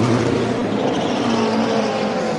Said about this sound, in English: The engine fires up again as they are finishing up with the fuel.